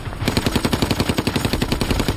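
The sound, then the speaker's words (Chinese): Machine gun firing from a tower across the Rhine in a wartime battle: a rapid, unbroken burst of loud, evenly spaced shots in a fast rhythm. “忽然，和对岸塔楼上的机关枪猛烈地扫射起来。”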